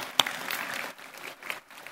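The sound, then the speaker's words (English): Faint audience applause honoring church pastors and leaders, a quiet, uneven patter of clapping with a few sharper individual claps standing out and brief dips in between. “Please give our faithful servants a round of applause.”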